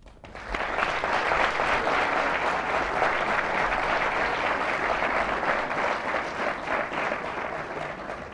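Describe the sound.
An audience at the LSE gives Chancellor Klima a warm welcome with sustained applause. The clapping starts abruptly after a brief quiet moment and holds at an even, dense level for about eight seconds.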